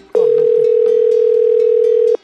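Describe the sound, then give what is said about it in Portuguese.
A telephone dial tone sounds before a call is placed: one loud, steady, unbroken tone of about two seconds that starts and stops abruptly, with no voices. “E agora vamos ligar pro João, passar um trote.”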